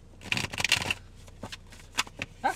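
Playing cards are shuffled for a card reading, with quick papery riffles and snaps in several bursts, the densest at the start and shorter flicks later.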